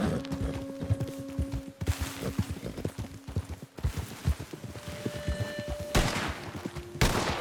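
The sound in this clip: Rapid gunfire from a video game: many sharp shots crack in quick, irregular bursts throughout, over steady sustained tones, with a few louder clusters near the end.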